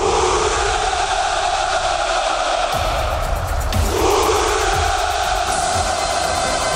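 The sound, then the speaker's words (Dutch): Massed Russian soldiers chant a drawn-out hurrah at the Victory Day military parade. Many voices join in one loud, sustained roar that carries on without a break, with a slight shift in tone partway through. “Maar tijdens de militaire parade klonk als vanouds een Russisch hoera.”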